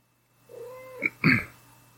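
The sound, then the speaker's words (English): A house cat meows: a drawn-out, fairly quiet wavering cry, then a short, sharper and louder meow, each standing alone against a faint steady hum. “Do I hear a cat? Yeah, that's my cat.”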